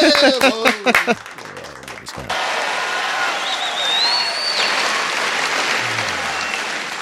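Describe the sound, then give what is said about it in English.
A crowd bursts into sustained, dense clapping and applause after a couple of seconds of loud voices. The applause continues steadily to the end. “Say that. And then we'll clap.”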